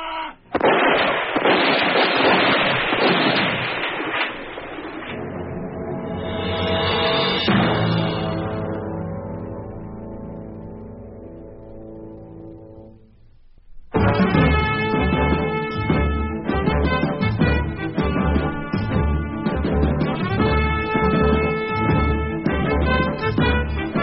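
A troop fires a rifle volley: a loud, dense burst of gunfire that rolls and decays over a few seconds. Sustained tonal music then swells and fades, and fuller music enters afterward.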